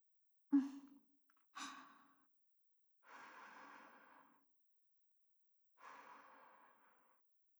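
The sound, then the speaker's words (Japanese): Someone gently blows on tea to cool it: two short, sharp breaths, then two longer, soft, breathy blows, all faint and separated by silence. “私が心を込めて、ふうふういたしますね。”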